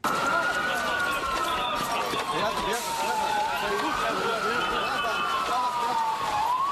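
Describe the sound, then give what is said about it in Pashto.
Ambulance sirens wail as wounded are carried to hospitals after a suicide bombing at a wedding in Gaziantep, near the Syrian border. The siren rises and falls slowly and repeatedly over a dense, loud wash of background noise. “دا د هغه امبولانسونو ژغونه دي چې د غازی انتاب په سیمه کې زخمیان روغتونونو ته انتقالوي.”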